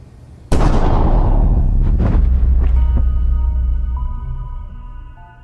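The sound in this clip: Pistol gunshot, one loud sharp blast followed by a long rumbling decay, with a couple of fainter bursts after it and sustained tones coming in later.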